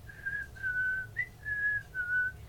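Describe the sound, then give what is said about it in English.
A woman whistling a jaunty little tune to herself: five soft, clear notes, the middle one a brief higher chirp, with quiet gaps between them and nothing else over them. “she's whistling to herself, just like,”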